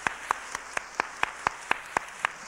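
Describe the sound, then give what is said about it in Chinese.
Steady clapping at a ceremony where a souvenir is being presented, about eleven sharp, evenly spaced claps at a slow, regular pace, each a crisp slap with nothing between them. “大家鼓掌。”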